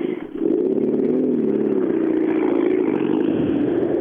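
A Subaru rally car's engine is heard as it arrives at the finish, a loud, steady, droning roar that swells in after a brief dip and holds continuously.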